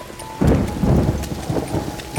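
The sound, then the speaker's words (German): Steady rain patters down as it grows heavier, and a low rumble of thunder rolls in early and keeps going under the dense hiss of the drops. No voices are heard. “Gehen wir weiter, bevor der Regen noch stärker wird.”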